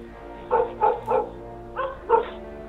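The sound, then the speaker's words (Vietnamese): A dog barking frantically at a dark bend by a lake: five sharp barks, three in quick succession, a short pause, then two more. “con Lu của Cường nhìn thấy hay đánh hơi thấy cái gì, nó sủa lên điên loạn. Nó sủa như thể chưa từng được sủa bao giờ.”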